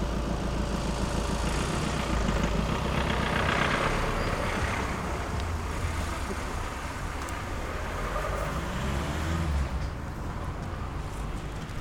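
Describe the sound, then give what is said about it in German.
A car stops and idles beside an urban footpath, its low engine rumble steady and fairly loud, mixed with broad traffic noise throughout. “Ja, Auto? Da, nee, der bleibt stehen. Ah. Soll ich mal gucken? Ein Auto.”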